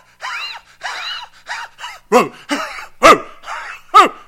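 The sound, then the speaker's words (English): A human voice imitates a leashed dog choking and barking. Nine short, strained, yelping bursts come in an uneven rhythm, each rising and falling in pitch, with the later ones harsher and louder. “And he's choking and barking and dragging her all at the same time.”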